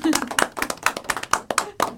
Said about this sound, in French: t'applaudit quand même.